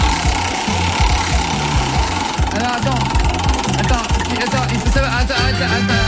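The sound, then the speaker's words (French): Rapid mechanical ticking from a prize wheel being spun on a radio show, running steadily over a rhythmic music bed and continuing throughout. “Allez, on va faire tourner la roue des cadeaux”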